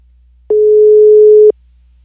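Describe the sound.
A telephone ringback tone sounds as a call rings on the line: a single steady, mid-pitched tone lasting about one second, clean and unbroken, with no voices.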